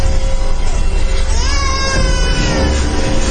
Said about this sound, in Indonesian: ada suara... bayi yang menangis. Iya, sangat jelas. Tepat di belakangku.